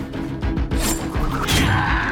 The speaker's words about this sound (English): The knife skewers the shaggy-haired pirate's hand at the wall.